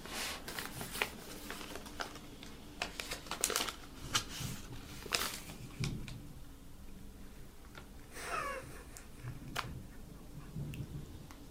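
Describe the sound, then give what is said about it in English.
An envelope being opened to reveal something inside: a few crisp bursts of paper crinkling and tearing, separated by quieter rustling. “It's just an envelope. There's something inside it. Don't reveal it. Let me see it. You need to fully open it properly.”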